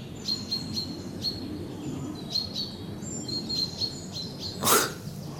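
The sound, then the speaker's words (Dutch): Blackbird alarm calls from a bird moving between trees: many short, sharp, high chirps repeat in a steady series over a low background rumble. A single loud, noisy burst cuts in near the end. “dat is alarm hè, van die Merel”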